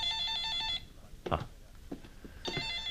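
A telephone rings with a bright, warbling electronic trill. One burst plays at the start and cuts off, a few soft knocks follow, and the ring starts again near the end.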